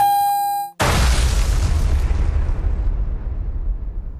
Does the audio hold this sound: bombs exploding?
yes